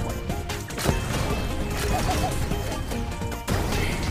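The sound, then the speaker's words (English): Bombs exploding during a brawler match in a video game: a dense, continuous barrage of crashing, thudding blasts, with a few sharper hits standing out from the loud, steady clatter. “If I just went like this, like, there's just bombs blowing up everywhere. It's just kind of insane.”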